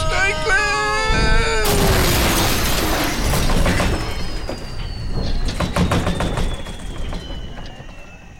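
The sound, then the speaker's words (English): A spaceship crashes down and crushes someone. A descending whistle leads into a loud, noisy crash, followed by rumbling and metallic clanks of settling debris. “Oh my God, what happened there? He's been crushed by that spaceship. That's what happened, isn't it?”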